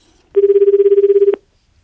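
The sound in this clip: Telephone ringing as a call is placed to a listener's home: a single loud, warbling electronic ring about a second long, pulsing rapidly at a steady pitch, with no voices over it.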